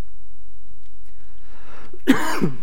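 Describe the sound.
A single harsh, throaty cough from someone with a tickly throat breaks out near the end after a stretch of quiet background hum.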